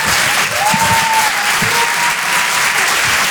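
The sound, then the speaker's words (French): Loud, continuous applause from an audience greeting a comedian, with a brief whistle rising over the clapping early on. “Faites du bruit, s'il vous plaît, pour Certes Mathurin.”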